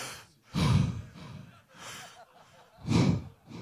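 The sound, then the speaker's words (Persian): Deep breaths drawn while wearing a face mask: three heavy, breathy inhales and exhales, the first and last loudest, with a softer one between. “ماسک زدی، نفس کشیدن سخته، نه یه نفس عمیق بکش.”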